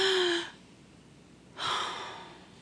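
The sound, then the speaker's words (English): A church audience takes a deep breath: two airy, breathy swells with no talk, the first brief and strong and the second longer and softer. “Now, everybody right now, just take a deep breath.”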